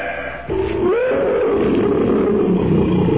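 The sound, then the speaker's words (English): A tiger roars in the jungle, a deep, rough, sustained roar that swells after a short quieter opening and stays loud and rumbling to the end, with no voices. “What's that? A cat. Probably a tiger somewhere in the jungle.”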